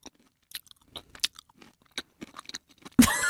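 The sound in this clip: Close-up chewing and crunching of food: many crisp, irregular bites and mouth clicks, ending in a loud, sustained burst of noise.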